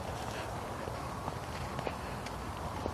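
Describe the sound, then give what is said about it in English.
Soft, faint footsteps of a person out on a walk land in a few uneven steps against a steady background hiss. “So, I went out for my walk. I came out. I'm here. I'm walking.”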